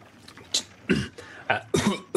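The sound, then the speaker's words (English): Harsh coughing from a sickly, bedraggled farmer coughing up blood. Several rough, raspy coughs come in an uneven cluster, loud and breathy, with brief gaps between them. “I cough some blood into my elbow.”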